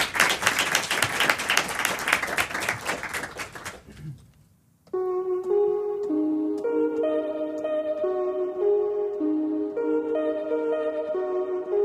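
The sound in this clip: An audience applauds to welcome a band, dense clapping for about four seconds that thins and dies away, followed by a short pause before tonal keyboard music begins.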